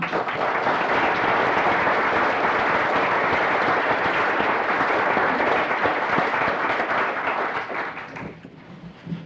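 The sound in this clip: Audience applause welcomes visiting guests in a legislative chamber, a steady, full patter of many hands clapping that holds evenly for several seconds, then tapers off at the end.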